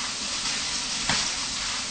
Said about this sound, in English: All you do is just wait for the oil to be heated, no? Yes. And then you put the tofu in there.